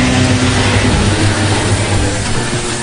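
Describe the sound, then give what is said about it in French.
Engine rumble from vehicles arriving at a US military base, where marines guide the incoming traffic. The deep, loud drone holds steady throughout. “Un projet soutenu par des investissements massifs, au milieu duquel des marines continuent de guider les véhicules qui affluent.”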